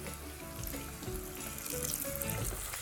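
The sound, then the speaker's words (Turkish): Dough sizzles as it fries in hot oil for a light pastry-style dessert, one side already browned and the piece being turned; a steady, dense crackle runs throughout without pause, and no voices are heard. “Zaten yağ kızgın olduğu için hemen bir tarafı kızardı. Evet, şimdi diğer tarafı.”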